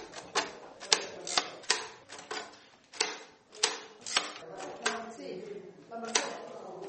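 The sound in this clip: Sharp mechanical key strikes of a braille typewriter punching dots into paper, a steady series of loud clacks at an uneven, hand-driven rhythm.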